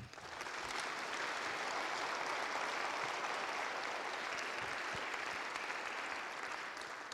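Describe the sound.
Sustained audience applause welcoming a speaker at a campus event, a dense, steady wash of clapping that holds through the whole stretch and eases slightly at the end, with no voices over it.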